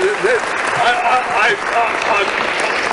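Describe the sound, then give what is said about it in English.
Enthusiastic audience applause and cheering greet a guest on a talk show. Steady, dense clapping runs throughout, with excited voices calling out over it. “I've never had an ovation like that.”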